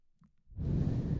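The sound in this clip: A deep breath exhaled during a guided relaxation, a soft breathy rush that swells in after a short quiet pause and holds steady to the end.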